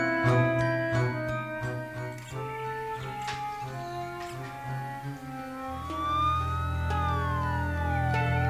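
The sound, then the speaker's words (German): Ambulance siren on its way, a wailing tone gliding up and down in the second half, mixed over sustained music with chiming notes. “der Krankenwagen kommt.”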